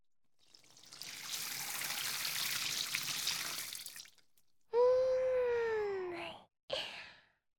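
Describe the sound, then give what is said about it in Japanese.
Water pours over a person's head during a hair wash: a steady rushing stream for about four seconds. A voiced sigh-like sound with a sliding pitch follows, then a brief second burst. “まずは頭から流して全部一気に洗っちゃいますよ。”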